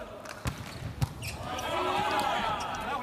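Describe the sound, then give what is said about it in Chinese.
A volleyball serve struck by the German team's outside hitter, number 66, in a match against China: a couple of sharp hand-on-ball thumps over a dense, steady bed of arena noise. “66号德国队的主攻手勒尔斯率先来发球。”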